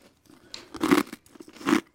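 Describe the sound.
Crisp biscuits crunched between the teeth, with two loud, sharp bursts of crunching and brief chewing crackle in between.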